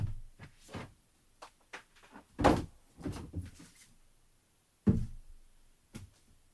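A gift box of Tan Cuong bud tea is opened, giving soft knocks and dull thuds as the lid and box are handled. The taps are irregular and quiet, with two heavier thumps standing out.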